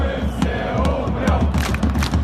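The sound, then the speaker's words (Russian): Football fans chant in unison at the Zenit–Ural match, a loud, dense roar of many voices with rhythmic shouted accents rising and falling over continuous crowd noise. “Они выкрикивали, сейчас я вам даже прям вот включу, вот это. Мы все умрем, мы все умрем, мы все умрем, мы все умрем. Это матч «Зенит-Урал», «Зенит» выиграл 7-1.”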